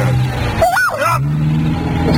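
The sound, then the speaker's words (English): A car skidding on a muddy road, its engine droning steadily as the wheels struggle for grip, with a brief wavering whine partway through over continuous low rumble. “just a little skid.”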